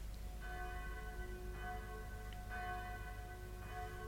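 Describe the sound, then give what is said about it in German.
Town hall bell rung by hand on a spring morning, tolling in steady strokes roughly once a second with bright, ringing overtones and long sustain, moderately loud over a low steady background hum, no voices. “Wer anders zieht am Strang der Rathausglocke als der alte blinde Kapitän Kett? Einer nach dem anderen werden die Schläfer aus dem Schlaf geläutet”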